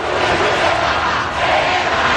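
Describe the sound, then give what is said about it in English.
Roar of a huge crowd lining Madrid's city-center streets to welcome Pope Leo XIV: a dense, continuous wash of cheering and shouting voices, loud and unbroken throughout. “Thousands lining the streets to Spain to welcome Pope Leo XIV. Local authorities in Madrid saying more than 500,000 gathered for this event in the city center.”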